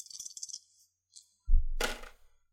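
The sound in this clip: Dice rolled during a Clue board game: a quick run of many light, high clicks as they rattle, then a heavier thud and a fading clatter as they land.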